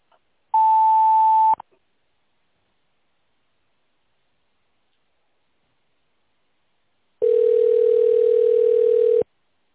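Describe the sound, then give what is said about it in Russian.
Telephone signal tones follow an office's automated greeting on a company line: a short, steady, higher tone, then silence, then a longer, lower steady tone that stops abruptly. “Если вы знаете внутренний номер регионального офиса, наберите его после сигнала или дождитесь ответа оператора.”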